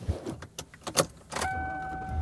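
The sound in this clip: Car interior sounds while driving home, with a few soft clicks and thumps at first, then a steady low engine hum joined by a sustained two-pitched electronic tone.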